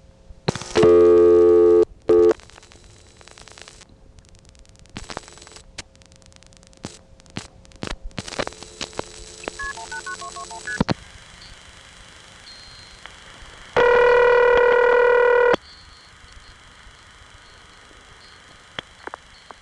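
Telephone dialing and line tones on an operator-route call to Mexico City: a loud steady tone, a stretch of clicks and short tone pulses, then another loud sustained tone, with faint line hum throughout.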